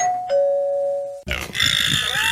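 Doorbell ding-dong sound effect of two clear chime tones, the second lower and held, then an abrupt, rough, noisy burst that sounds like a grunt.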